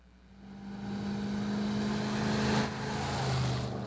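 A car whizzing past on a road, its engine hum swelling from quiet to a loud peak, then dropping in pitch as it goes by and trailing off.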